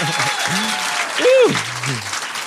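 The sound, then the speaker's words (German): Crowd applause from the audience at an evening scoring contest judged by a jury: dense, steady clapping throughout, with a loud voice whooping and cheering over it near the middle. “Und das jetzt in Applaus ummünzen.”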